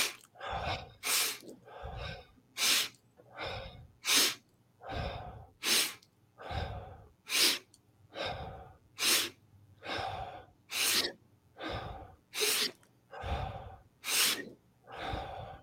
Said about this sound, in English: And on that final breath together, just follow me. We're going to take that deep breath.